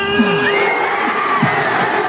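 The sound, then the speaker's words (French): A crowd of football supporters cheers in city-centre streets after a title win, a loud, continuous roar broken by shrill whoops and shouts that sweep up and down in pitch. “Marie-Astrid Guégan, les supporters ont ensuite envahi les rues du centre-ville pour fêter le titre.”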